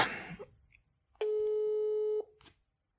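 A single steady telephone ringback tone sounds during an outgoing call, mid-pitched and buzzy with harmonics, lasting about a second at even loudness. A brief burst of rustling comes before it and a faint click after it.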